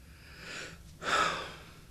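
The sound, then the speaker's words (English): A speaker takes a deep breath: a soft, airy draw of air, then a louder and longer rush of breath that slowly fades, with no talk over it. “deep breath”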